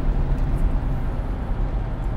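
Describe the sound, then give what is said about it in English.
Low, steady road rumble of a car being driven, a continuous dull noise without distinct events or changes. “I am driving right now on my way over to Maestro's.”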